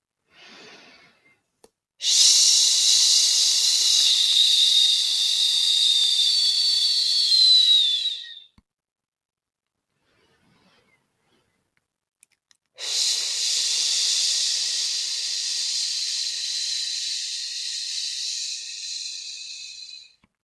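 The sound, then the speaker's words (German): Long, breathy 'sch' hissing exhales during a breathing exercise: two sustained, near-toneless hisses of about six and seven seconds, separated by a quiet pause and steady in loudness, with no talking. “Jetzt atme tief ein und atme fast ohne Ton aus dem Laut Sch aus.”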